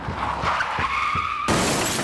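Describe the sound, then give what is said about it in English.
Tires squeal in a sustained, high-pitched tone as a car skids sideways, then an abrupt, loud crash as it slams into a dilapidated water tower. A harsh, noisy roar follows the impact. “spun the wheel, causing the car to slide sideways into the dilapidated water tower”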